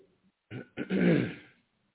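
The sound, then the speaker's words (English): Someone clears their throat: two short, sharp bursts followed by a longer, gravelly rasp that fades out, fairly loud and with no talking around it. “got to clear my throat here.”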